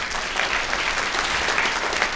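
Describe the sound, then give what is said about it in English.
Dense applause from an audience greeting a guest brought on stage, a continuous wash of many clapping hands that holds a steady loudness from start to finish. “Here he is. Give him an applause.”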